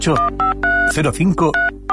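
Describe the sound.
Telephone dialing tones close a Spanish restaurant advert, a quick run of several short, bright beeping bursts with brief gaps between them, mixed with a voice.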